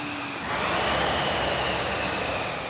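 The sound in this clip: A RowErg rowing machine in use during a workout gives off a steady, airy whoosh from its flywheel. The rushing noise swells in after a quiet start and holds even and moderately loud to the end.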